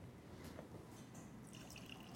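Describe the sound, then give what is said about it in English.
Bordeaux wine sloshes and gurgles inside a plain beer pitcher, a faint, continuous liquid churn with dripping, trickling detail and no voices. “It's the kind of pitcher you'd get in a beer garden or something. It doesn't have to be anything fancy. And I'm going to let it slosh and gurgle around. We're going to flush it with oxygen”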